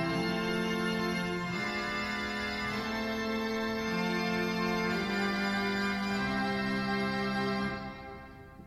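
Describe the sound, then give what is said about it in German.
Out-of-tune pipe organ reed stops played together, a dense, buzzy sustained chord whose lower notes shift in steps, held steadily before releasing at the end. “Wenn ich jetzt zum Beispiel die sogenannten Zungenstimmen zusammenziehe, dann kommt ein Klang heraus, der also nicht mehr verwendbar ist. Ja, und das klingt so.”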